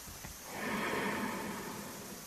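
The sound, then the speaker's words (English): A slow, deep breath during a sound healing session: a faint, airy rush of air that swells and then holds steady, soft and unhurried, with no voices. “Inhale deeply.”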